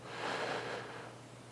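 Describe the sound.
A single slow, deep breath drawn in during a guided pause, heard as a soft, airy rush of air that swells and then fades away, quiet and alone with no talking.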